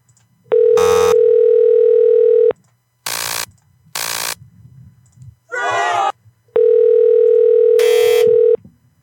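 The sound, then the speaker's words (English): An unanswered phone call rings out with two long, steady ringback tones about four seconds apart. Short bursts of noise and a warbling electronic chirp fill the gap between them. “Oh, no, buddy. Dang it. She didn't answer. Try calling from Google Voice.”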